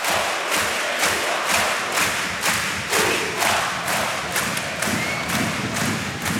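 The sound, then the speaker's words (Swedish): A crowd sings at an ice hockey game in Gothenburg between Frölunda and Växjö. The loud, massed voices ride over steady, regular heavy thuds that keep a brisk beat throughout. “ni hör vad de sjunger i Göteborg.”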